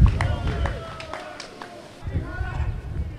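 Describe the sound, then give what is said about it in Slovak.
Bustle on Košice's main street before an evening match, with overlapping voices and quick footsteps in a lively, constant murmur of people. “Počujeme, že na hlavnej ulici to žije, príprava na večerný zápas.”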